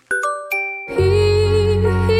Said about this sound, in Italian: Mi auguro che abbiano cambiato la campanella della borsa, adesso vediamo se oggi c'è questa novità.